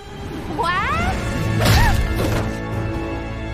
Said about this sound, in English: As Harley aims at Bruce, a whip pulls the gun out of her hands.